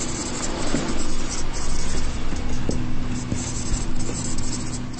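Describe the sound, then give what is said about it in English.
A marker writes on a flip chart during a seminar, making a series of dry, squeaky scratching strokes in uneven bursts over a faint steady hum. “We're going to use the flip chart now because we've got to a list, so I might forget it.”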